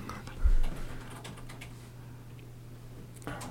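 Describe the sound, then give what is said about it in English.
Faint, quick keystrokes as a search is typed on a computer keyboard, with a few scattered light clicks over a low steady hum and a slightly louder knock near the start. “just type in Juicy at Kanye West concert.”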